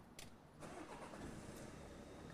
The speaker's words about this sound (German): Wir sollten auch wirklich Motor anwerfen und nachladen.